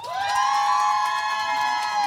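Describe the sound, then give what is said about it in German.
Crowd cheering as a singer takes the stage at a live concert. A loud, sustained whoop rises in pitch at the start and then holds, with faint clapping beneath. “Paula Stellar, euer Applaus.”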